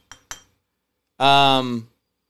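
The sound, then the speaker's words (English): Two quick, bright clinks from a Ball mason jar and its metal lid, followed after a pause by a short, sustained vocal sound. “And so when you think about, like, Ball mason jars like this with the little ball lid like this.”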